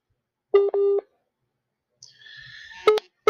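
Electronic telephone tones as a call is hung up: two short steady beeps, a pause, a brief crackling burst, then two more clipped beeps, all fairly loud against silence.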